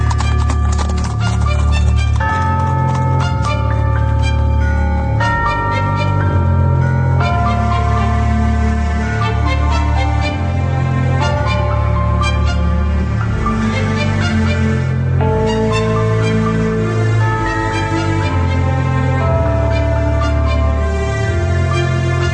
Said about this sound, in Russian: ямщик свистнул, и лошади поскакали.